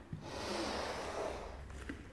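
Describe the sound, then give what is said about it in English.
A deep breath drawn in slowly during a breathing exercise, a single steady airy inhale lasting about two seconds, soft and continuous with no voice over it. “Take a long, slow breath out. Another deep breath in.”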